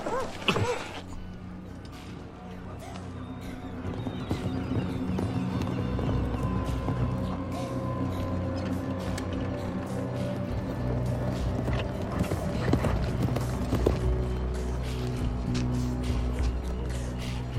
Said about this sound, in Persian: سوارکارا نزدیک میشن.